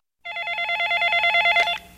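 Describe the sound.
A telephone rings for an incoming call: one electronic warbling trill lasting about a second and a half, bright and fairly loud, then stopping.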